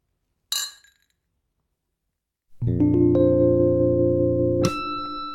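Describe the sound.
Glasses clink together in a toast with a single bright, ringing chime that fades quickly. After a silence, a steady low sustained tone begins and a second bright strike sounds near the end.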